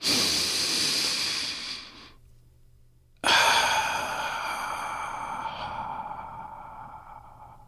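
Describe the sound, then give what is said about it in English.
A deep breath: a long, airy inhale, a short quiet pause, then a long, breathy exhale that slowly fades. “And now, if you're ready, let's take a deep breath.”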